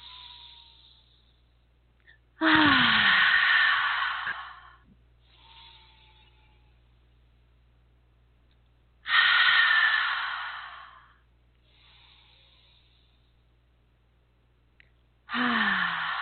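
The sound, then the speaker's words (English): A few long, deep breaths in and out, each a loud rushing inhale followed by a softer, trailing exhale. They repeat in a slow, steady rhythm with quiet pauses between them. “Let's end with a few big old deep breaths.”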